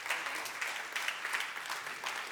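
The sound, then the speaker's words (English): Audience applause at a church service: dense, continuous clapping from many hands holds at an even level throughout, with no voices over it. “put your hands together again, everybody, every location. Amazing. Amazing.”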